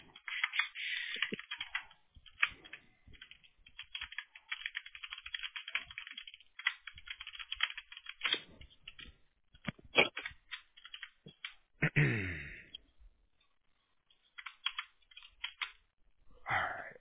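Computer keyboard typing while text is copied and pasted: irregular runs of quick, clicky keystrokes broken by pauses, with a near-silent gap before a final few taps.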